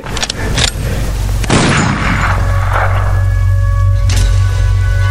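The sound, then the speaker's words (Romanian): Gunshots from a gun sound as a few sharp, booming bursts, loud and spread out over a steady low hum. “Trage cu arma. Cum o așa din prima? Trage, trage, mă. Trage, trage.”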